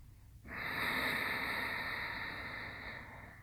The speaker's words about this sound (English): An energetic breath that on its own will bring heat into your body.